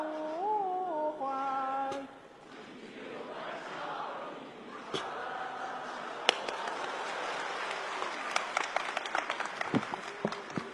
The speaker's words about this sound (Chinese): 花那么些钱唱这破歌，唱完还鼓掌呢